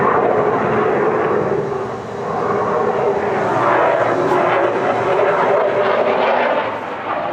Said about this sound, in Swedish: I fonden bakom de båda statsledarna finns det nya JAS Gripen E som bara några dagar tidigare formellt överlämnats till flygvapnet under högtidliga former.